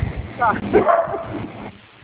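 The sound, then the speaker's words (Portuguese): A dog barking at home: a few high, whiny yips and barks that come through muffled, mixed with a voice speaking. “Eu peço desculpa pelo cachorro latindo, né?”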